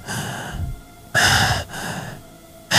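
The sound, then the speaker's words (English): A human voice imitates the shallow, gasping breathing of someone who has just coughed up and spluttered fluid. Three loud, harsh gasps are separated by quieter, raspy breaths. “shallow breathing.”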